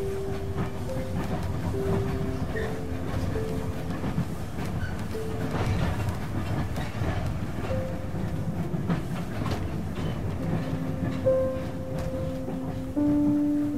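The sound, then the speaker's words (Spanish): A train pulls away with a steady, loud rumble and clatter of rolling wagons, holding at an even level throughout with no voices. “El tren se alejó deprisa. Sus luces no tardaron en desaparecer, y al cabo de un minuto ya no se oía nada.”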